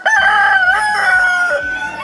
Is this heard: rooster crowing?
yes

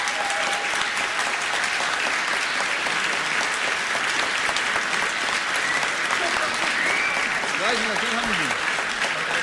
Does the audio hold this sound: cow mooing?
no

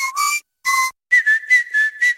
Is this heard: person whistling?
yes

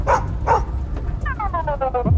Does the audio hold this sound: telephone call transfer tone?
no

